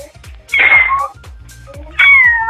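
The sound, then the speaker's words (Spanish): A person imitates a cat with two loud, drawn-out meows separated by a short pause. Each meow is high and wavering, then slides downward in pitch. “cualquiera puede maullar, básicamente. Pero sí. ¿Pero tú maullas bien?”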